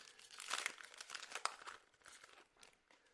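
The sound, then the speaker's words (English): Crinkling of a 2022 Optic UFC trading card pack wrapper being opened from a retail box: continuous papery crackle and crunch, busiest and loudest in the first half with a sharper snap near the middle, then thinning to softer rustles. “Sorry about the pack noise in the microphone”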